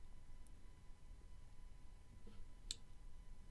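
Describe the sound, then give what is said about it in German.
A single faint, sharp mouse click on a browser button stands out once against a quiet, low background hiss, with no talk. “Hier auf den Button zu Firefox hinzufügen klicken.”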